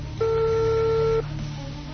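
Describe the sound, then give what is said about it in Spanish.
Telephone ringback tone on a call to a ministerial office line: one steady electronic tone lasting about a second, then low background hum. “Está marcando, acabo de marcar, está sonando. Está sonando el teléfono de la ministerial”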